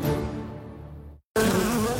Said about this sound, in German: Ein Wespennest am Haus